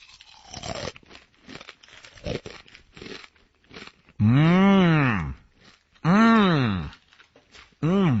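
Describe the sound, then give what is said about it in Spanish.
A bag of Takis Fuego chips is opened with a stretch of crinkling, crackling plastic rustles, followed by several long, wavering vocal sounds. “Es una bolsa de Takis. Fuego.”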